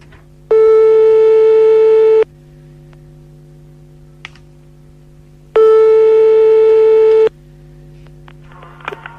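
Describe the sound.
A telephone line tone sounds while a radio call-in show dials a listener: two loud, steady, long tones, each lasting nearly two seconds, separated by a pause with a few faint clicks.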